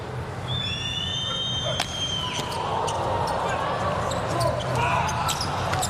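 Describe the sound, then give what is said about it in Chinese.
A volleyball serve during a match involving Poland: a sharp ball strike over steady crowd noise, with a whistle tone before it and a few more short hits and claps from the crowd. “安德森来发球”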